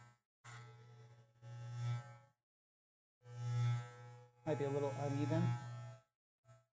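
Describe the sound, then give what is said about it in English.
An electric shaver buzzes as it cuts through a man's beard. It gives several bursts of steady, low humming with short pauses between them, and talk can be heard at times. “I'll just shave my beard if it's fucked up.”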